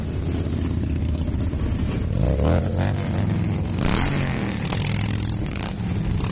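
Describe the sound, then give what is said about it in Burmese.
A dense, continuous roar of roughly 6,000 motorcycles riding together through Washington, DC, in a rally honoring veterans. Deep engine rumble blends with scattered revving and clatter at a steady, loud level throughout. “ဆိုင်ကယ်စီးသူ6000လောက်ဟာမြို့ကိုလှည့်လည်မောင်းနေတာကြောင့်မိုးချိမ့်တန်လို့လဲကြားနေရပါတယ”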